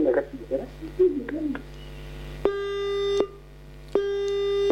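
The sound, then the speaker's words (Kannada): A telephone busy tone sounds after a call is cut off: two steady, even-pitched beeps, each lasting under a second, follow a stretch of someone speaking. “ಯಾಕೋ ಕರೆ ಕಟ್ಟಾಗಿದೆ sir.”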